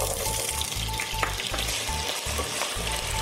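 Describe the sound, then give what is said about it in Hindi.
Potatoes sizzle as they fry in hot oil to brown lightly, a loud, dense crackling hiss with faint repeated clicks and low thumps, with no voices. “तेल को अच्छे से गरम कर लेते हैं फिर उसके बाद क्या करेंगे आलू डालेंगे आलू डालेंगे इसको हल्का से ब्राउन करना है”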